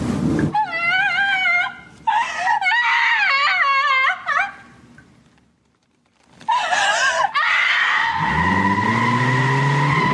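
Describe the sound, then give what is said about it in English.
Car tires screeching as the car is driven very fast: several loud, wavering high squeals in bursts, a short lull, then a long sustained squeal with a low engine roar building underneath at the end. “Sydney's scream turns into the screeching of tires as she is driving really fast to SD6.”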